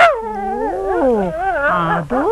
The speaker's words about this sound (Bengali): না না, এসব কুকুর কামড়ায় না, খালি আদর করে আর আদর খায়।